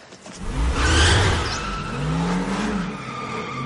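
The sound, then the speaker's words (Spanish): A shiny sports car engine revs in a parking lot with a loud roaring swell that peaks early and eases off, followed by a second, lower surge. No voices are heard. “Yo conduzco este buga precioso y brillante, hermanito.”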